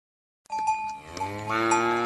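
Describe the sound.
A dairy cow gives a single long moo, starting abruptly and holding steady for more than a second with a rich, buzzing harmonic tone, heard alone with no voices.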